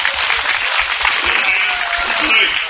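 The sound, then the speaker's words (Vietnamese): A Buddhist gathering applauds: a steady, dense round of many hands clapping holds at an even, fairly loud level throughout, with voices mixed into the crowd sound. “Thành bây giờ trước tiên là con xin cho một tràng pháo tay cho Diệu Ngọc, gia đình Diệu Ngọc với Minh Thiện.”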